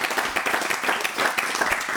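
People gathered at a table applaud a newcomer who has just joined them; light, uneven clapping from a small group keeps up throughout.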